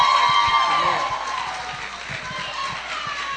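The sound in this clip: Applause and cheering rise from the audience at a church gathering as a speaker is welcomed, a dense, steady roar of clapping and crowd noise with a voice carrying over it.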